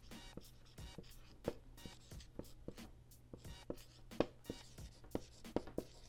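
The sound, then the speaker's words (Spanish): Writing strokes scratch across paper while a reply is written out by hand. Many short, quick strokes come in an irregular rhythm, with a few louder ones, over a faint, steady low hum. “Y ahorita se las escribo.”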